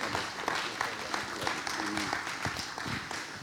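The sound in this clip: A church audience applauds to welcome a speaker, a steady wash of clapping dotted with sharper individual claps, with voices talking over it.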